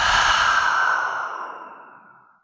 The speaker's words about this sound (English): We'll take a full breath in through the nose and out through the mouth.